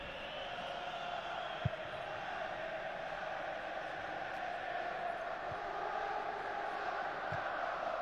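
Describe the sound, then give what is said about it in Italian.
Stadium crowd chanting loudly during a Juventus football match, a dense, steady roar of many voices that carries through the whole stretch without clear breaks. “gran voce i cori da parte del pubblico dello stadio”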